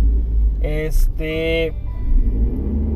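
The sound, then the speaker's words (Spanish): A car's engine gives a low, steady rumble throughout as it is driven, with brief voiced tones rising over it in the middle. “Estoy manejando, por si escuchan algún ruido o aceleración, pues ya saben que soy yo”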